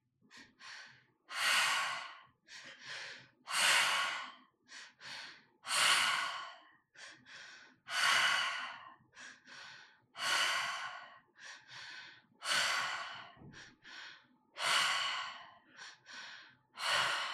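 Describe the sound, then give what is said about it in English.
Guided breathing follows a repeating pattern: long, airy breaths alternate with clusters of shorter, quicker ones, each soft and breathy with quiet gaps between. “And now, when you're ready, let's start the breath pattern together.”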